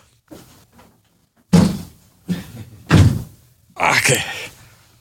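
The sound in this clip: A door being opened: two soft knocks, then heavier thuds, ending in a longer rattling, scraping noise.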